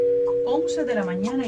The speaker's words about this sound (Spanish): este es un homenaje a una radio que existe en Cuba, la Radio Reloj, que ellos se encargan de decir prácticamente mucha información y también la hora exacta en varios países, y es incluso suena más o menos así.